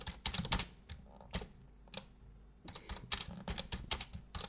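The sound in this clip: Rapid keystrokes on a wireless computer keyboard with weak batteries, coming in dense bursts of clicky taps with a short pause in the middle before the typing resumes, with no voices.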